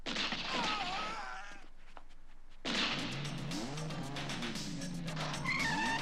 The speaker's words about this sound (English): I hear the Ferrari taking off.